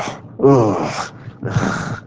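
A man imitates the tired groan of someone worn out on a bike ride: two drawn-out, low moaning sounds separated by a brief pause. The first is louder with a wavering pitch; the second is slightly softer.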